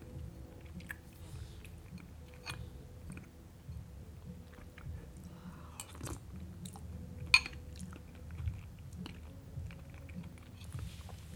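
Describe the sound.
Faint chewing and biting as someone tastes food, with soft, crunchy clicks scattered over a steady low rumble of loud neighbouring music in the background.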